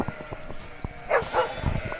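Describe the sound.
A sheepdog barks while guarding a flock in the countryside. A few short, moderately loud barks stand out over a steady background.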